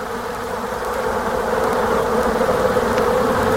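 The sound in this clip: Many bees buzzing inside a beehive, a dense, continuous drone that holds steady and loud throughout, with no other sounds over it.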